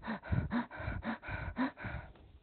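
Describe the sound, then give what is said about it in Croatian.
A voice imitates rapid, shallow breathing typical of tachypnea, producing many short, quick gasping breaths in a steady rhythm that stay fairly faint throughout. “i tada se javlja teško disanje, odnosno tahipnea i uz to je teško pričati. Tahipnea je kratak i ubrzan dah i zvuči ovako.”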